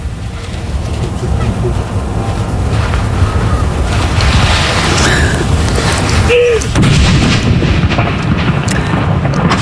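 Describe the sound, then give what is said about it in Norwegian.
Loud, sustained rumbling booms of a cannon salute fired at a fortress form a dense wall of blast and echo noise with no clear gaps between shots. “det smeller bra her på Akershus festning nå”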